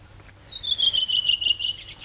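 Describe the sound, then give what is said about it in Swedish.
A redwing thrush sings energetically: one quick phrase of rapid, high, pulsed notes that drift slightly downward in pitch and stand out clearly against a quiet background. “Ja, så sitter den där en rödvingetrast och sjunger energiskt, frenetiskt. Sjunger och sjunger och sjunger.”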